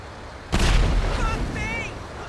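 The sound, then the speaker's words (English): A single heavy cannon blast from a Rhino tank in a video game booms out suddenly, then gives way to a sustained rumbling roar that slowly thins, with faint high whistling tones near the end. “It's called Rhino Tank, even. Boom! Alright, but I think the aiming doesn't work for this one, right?”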